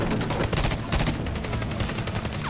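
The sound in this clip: Gunfire rattles through a video game firefight in rapid, overlapping bursts. Loud, dense shots crowd together like automatic weapons and keep going without a break for the whole stretch, with no talk.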